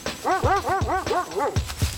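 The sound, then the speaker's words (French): Tracking dogs bark on a scent trail near a caravan, a quick string of short, high, yelping barks that repeat at an even rhythm. “Non loin de la caravane, les chiens flairèrent une piste.”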